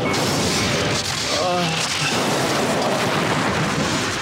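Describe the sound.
A spaceship exploding under enemy fire in a space combat video game, heard as a loud, dense roaring rumble that holds steady for about four seconds without pause.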